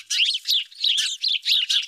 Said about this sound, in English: I remember seeing a lot of house sparrows in my neighborhood